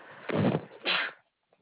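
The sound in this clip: A sneeze during a telephone call about a billing charge: two quick, breathy bursts in about a second, fairly loud over the thin phone-line sound, followed by quiet.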